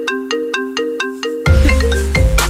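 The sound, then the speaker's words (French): An iPhone ringtone plays its repeating marimba-like melody in bright, evenly spaced tonal phrases, then continues from about halfway with a louder, fuller sound and heavy low bass underneath. “la sonnerie d'iPhone.”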